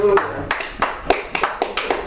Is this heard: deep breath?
no